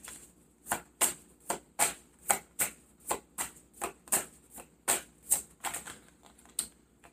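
Tarot cards being shuffled and drawn give many crisp slapping clicks in a steady, even rhythm. Each sharp snap is of similar loudness, with no voices.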